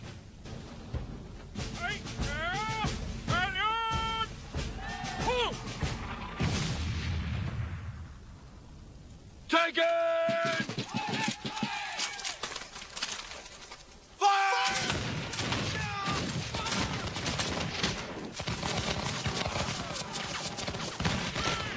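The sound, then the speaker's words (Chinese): Musket volley fire of 18th-century British and American soldiers in a film battle scene: repeated harsh, crackling bursts of gunfire mixed with voices and dense noise, with a short lull before loud firing resumes. “十八世纪的英国和美国士兵排列着密集的方队向前走去，而且他们还要走得很近了才开火。”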